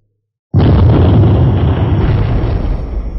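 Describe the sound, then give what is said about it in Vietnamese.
A sudden explosive blast booms through a mountain valley as the ground cracks apart. It starts abruptly at full force and rolls into a dense, continuous low roar that stays heavy and eases only slightly toward the end. “Tiếng nổ không ngừng vang vọng sơn cốc. Mặt đất lập tức nứt ra từ chỗ hai tay của Hàng Lập”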